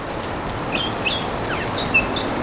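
Birds partly hidden in foliage call on a morning as autumn approaches, giving a few short, high chirps scattered over a steady background hiss, with no voices.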